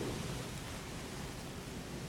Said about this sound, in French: Nous allons traverser une tempête. Elle arrive droit sur nous.